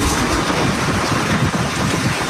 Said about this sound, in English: As high winds and rains swirled around the hotel and caused intermittent power outages.